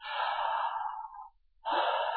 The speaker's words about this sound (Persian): نفس بکشید، نفس عمیق.